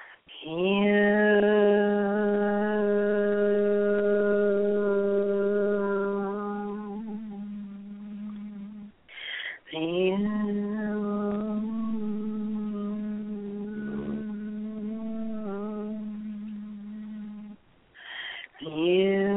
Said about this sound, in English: So we use the word Hu, spelled H-U, and it sounds like this.